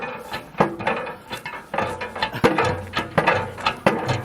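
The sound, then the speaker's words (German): A hand pump worked by its lever arm gives repeated creaking, ratcheting mechanical strokes with wooden knocks in an uneven rhythm. The strokes are moderately loud, with no voices. “Ja, wenn du so weitermachst, bricht irgendwann der Pumpenarm ab.”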